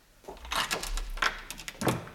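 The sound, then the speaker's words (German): An apartment door is opened while its security chain stays fastened, giving a few faint, short clacks and scraping rattles with quiet gaps between them. “So, mach auf, aber leg die Kette wieder vor.”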